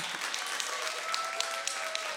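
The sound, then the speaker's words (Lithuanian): An audience gives faint, steady applause: a continuous patter of many hands, with a few individual claps popping out slightly louder along the way. “Tai pradžiai plojimų gausa. Sakiau gausa.”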